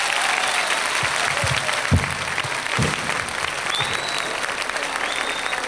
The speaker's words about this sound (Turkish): Hep beraber alkışlıyoruz.